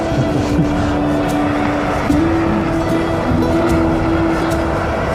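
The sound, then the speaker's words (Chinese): Car driving, with a steady, loud engine and road drone running throughout and a low humming tone that wavers slightly in pitch, with no voices. “那还是开车吧”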